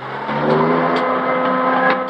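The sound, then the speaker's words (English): A car engine as the car reverses out of a scrapyard and speeds away: a loud, steady, droning hum with a rich tonal quality that holds for about two seconds. “The Special Branch sergeant watches as their car reverses out of the scrapyard. Police hold back a growing crowd of onlookers. Regan and Carter speed away.”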